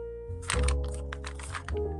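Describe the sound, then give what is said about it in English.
A book being opened gives a short burst of papery crackling and rustling that lasts about a second over a low, steady hum. “Is someone opening a book there?”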